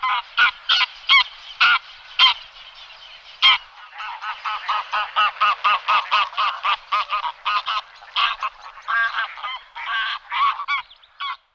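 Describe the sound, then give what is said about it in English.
Greylag geese honking: many loud, harsh single-syllable honks come in an uneven series, sparse at first and then crowding into quick overlapping bursts, with no voices. “Greylag geese give a monosyllabic honk, often in flight.”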